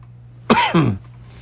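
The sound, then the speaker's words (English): A person who is ill coughs, two quick harsh bursts close together, loud and alone over a low steady hum. “every time I talk, I just start coughing.”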